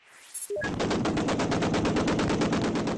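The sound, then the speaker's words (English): Automatic gunfire as rebel fighters come under fire from pro-Qaddafi troops while pushing into the oil port of Brega, Libya: one long burst of many rapid, evenly spaced shots at a steady rhythm. “Comes from Brega, rebel fighters coming under fire from pro-Qaddafi troops as they pushed into the oil port.”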